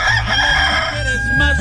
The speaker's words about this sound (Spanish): Ay, ay, ay, ahí está el gallito, está que canta. Este ya no canta para que se levante usted, si no está cantando de hambre.